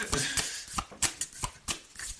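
A tarot deck shuffled for a reading produces faint, quick papery snaps and riffles in an irregular run of several soft taps.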